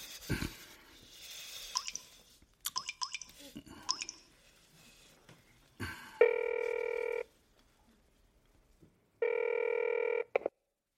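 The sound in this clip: A telephone rings in two long, steady electronic bursts separated by a pause, following a stretch of soft clattering and brief speech-like sounds; the rings are loud and even in tone.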